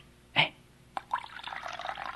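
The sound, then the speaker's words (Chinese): Water poured into a basin, heard as a brief splash and a knock followed by a steady, moderately loud trickling pour that continues to the end. “又倒水在盆里”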